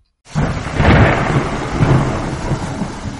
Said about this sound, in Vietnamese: Tiếng sấm ầm ầm, ánh sáng biến mất, mưa rơi tầm tã phát ra âm thanh vang dội nhờ muốn nuốt chửng nhà kính.